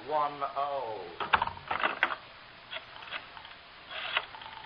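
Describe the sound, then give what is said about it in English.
A telephone is dialed for a long-distance call to Los Angeles: after a brief voice, bursts of quick mechanical clicks follow in uneven groups, fairly faint. “Oh, Mr. Crystal, can I call L.A. on this phone here? Oh, sure, Mr. Marlowe. Long distance is”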